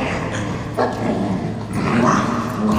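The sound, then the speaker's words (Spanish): A dog, standing in for a two-headed guard dog, barks with rough yips and whimpering whines, loud and continuous with no clear gaps across the few seconds. “un perro con 2 cabezas”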